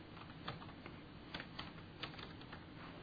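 Someone types on a computer keyboard to run a search, producing soft, faint keystrokes in an irregular patter over a steady background hiss.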